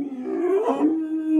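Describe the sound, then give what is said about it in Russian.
A drawn-out, howling roar of a hungry predatory beast, tonal and whining like a large dog. It is one continuous call whose pitch wavers upward in the middle before settling, and no one speaks over it. “Рев повторился. В нем слышалось нетерпение изголодавшегося хищника, завидевшего, наконец, добычу.”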